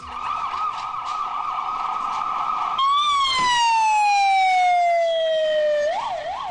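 Ambulance sirens carrying the wounded and dead after the 2010 Moscow metro bombings: a loud rapid warbling tone gives way to a long wail that slowly falls in pitch, then breaks back into a quick warble.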